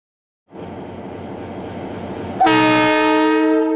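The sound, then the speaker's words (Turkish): A freight train hauling refined boron in container block wagons rumbles steadily, then a loud, sustained horn blast cuts in halfway through and holds to the end. “Türkiye ile Çin arasındaki ihracat treni yeniden yola çıktı.”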